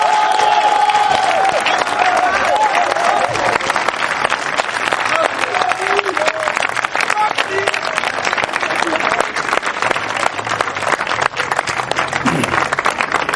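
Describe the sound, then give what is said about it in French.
A crowd claps and cheers in acclamation at a church gathering. The dense applause runs unbroken from start to end, with voices shouting through it. “On acclame le Seigneur Jésus-Christ.”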